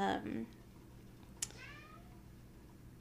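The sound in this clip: A hungry pet cat cries with a short, loud meow at the start. Later comes a fainter, drawn-out meow that bends in pitch, against a quiet background.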